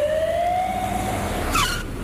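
An ambulance siren gives a steady, slowly rising wail, with a brief higher chirp near the end, over a constant vehicle rumble.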